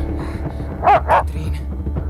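Two quick, loud barks from a dog, close together, rising over a low steady rumble and otherwise alone.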